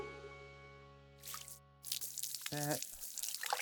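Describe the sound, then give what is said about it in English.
A stream of urine splashes into an ornate teacup, a spattering trickle that starts after a sustained musical tone fades and runs on to the end, with a brief hiss of noise just before it. “A stream of pee fills her ornate teacup.”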